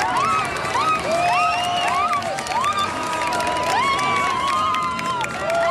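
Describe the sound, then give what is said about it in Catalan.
Audience at a live show cheering and shouting: a dense, loud, continuous roar with many high shrieks and whoops rising above it throughout. “Crec que és el moment amb més aclamació des de que sóc aquí.”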